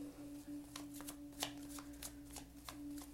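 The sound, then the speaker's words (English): Tarot cards are shuffled and drawn: many quick, crisp card flicks and riffles, faint, over a low steady hum with no talk. “We have the next few cards that are coming out.”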